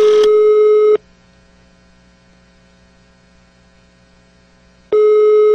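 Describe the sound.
Telephone ringing tone on the caller's line: a steady tone lasting about a second, a long pause filled with low mains hum, then the same tone again.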